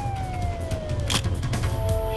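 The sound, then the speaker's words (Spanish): Police sirens wail as a pair of patrol cars and a police van speed around a corner. Steady tones glide slightly downward over a constant rumble of traffic. “Aparecieron uno tras otro un par de coches patrulla y una furgoneta de la policía que doblaron la esquina a toda velocidad en dirección sur.”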